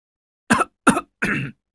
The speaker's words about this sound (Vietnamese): Những tiếng ho sặc sụa vang lên, cảm giác như nó ở ngoài sân thì phải.